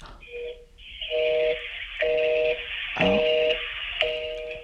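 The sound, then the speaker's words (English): An outgoing phone call rings unanswered, with a repeating buzzing ringback tone in short pulses about once per second over faint line hiss. “Maybe she won't answer now, but she'll answer in a second, and we can keep going then.”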